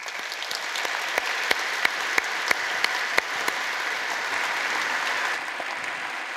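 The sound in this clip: A church audience applauds warmly to welcome a guest speaker. Continuous, dense clapping carries a few sharper individual claps that stand out, and it eases off slightly near the end.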